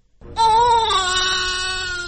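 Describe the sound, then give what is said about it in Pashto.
A newborn baby cries in the MSF maternity hospital in Khost, a single sustained, high wailing cry that starts abruptly and holds steady before easing slightly. “دا د هغه ماشوم د ژړا اغږ دی چې تازه د خوست د ایم ایس ایف یا د بې پولي ډاکټرانو په زیږنتون کې پیدا شوی.”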